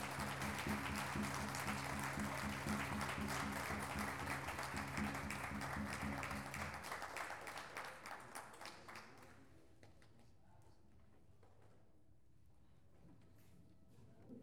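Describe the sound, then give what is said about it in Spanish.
An audience applauds at a multicultural gathering in Salta, with sustained, dense clapping for about half the stretch that then dies away to scattered claps and near quiet. “fuerte los aplausos a toda su gente”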